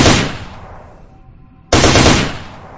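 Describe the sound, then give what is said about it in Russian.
An automatic rifle fires two short, loud bursts of rapid shots, separated by a brief lull. “И двумя неожиданно мелкими очередями добил гадину.”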